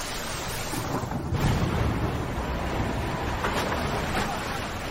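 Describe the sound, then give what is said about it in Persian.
Strong wind blowing in a steady, broad rushing roar that fills the whole clip, with slight surges in strength but no clear gusts or breaks. “باد خیلی شدیده.”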